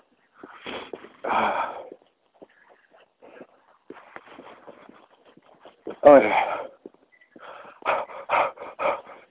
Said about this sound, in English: Pant. I can tell I'm walking too fast because I can't talk and walk at this pace.